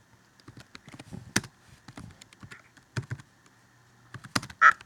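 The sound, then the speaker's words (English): Typing on a computer keyboard during an online chat: many irregular keystroke clicks in quick bursts with short pauses, and a louder cluster of taps near the end. No one talks. “I would like you to say what I type.”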